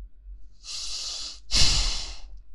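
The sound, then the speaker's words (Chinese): A person breathes heavily in two long, breathy exhalations, back to back. The second is louder and harsher than the first, and no words are spoken. “我的呼吸怎么了？我的呼吸有什么问题吗？”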